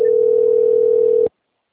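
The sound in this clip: A telephone tone signals an incoming call: one steady, clean electronic pitch that holds evenly for just over a second, then cuts off abruptly into silence.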